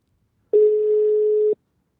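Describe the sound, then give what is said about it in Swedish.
A phone call ringing out: one steady, even ringback tone that lasts about a second and then stops, heard alone. “vi testar att ringa upp honom helt enkelt och se om han svarar”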